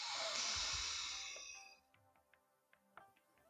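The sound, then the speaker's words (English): A deep inhale through the nose during a guided breathing and forgiveness exercise with a palm pressed to the forehead: a loud, airy rush lasting under two seconds that fades out, followed by a few faint ticks. “And again, inhale.”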